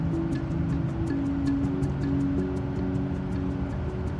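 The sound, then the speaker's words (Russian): A car pulling up to an isolation facility: a steady low engine rumble with a faint hum and a regular light ticking that runs throughout. “Автомобиль подъезжает к изолятору.”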